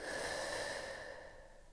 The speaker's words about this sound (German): in deine Lungen. Und atme kräftig durch den Mund wieder aus.